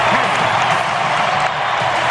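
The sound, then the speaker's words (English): A baseball crowd roars and cheers as the Phillies take the lead, a loud, dense, unbroken wall of voices and applause that holds steady throughout. “Listen to that crowd.”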